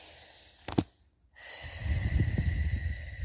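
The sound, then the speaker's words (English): A deep breath taken mid-talk, starting with a short, sharp sniff, then a moment of near silence, followed by a long, rushing, breathy exhale that stays fairly loud to the end. “That was a good breath. I needed that.”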